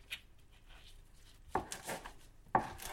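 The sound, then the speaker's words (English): A knife slices cooked food into thick wedges, giving a couple of soft, faint cuts with light scraping against the board. “we'll slice this up. sort of nice thick”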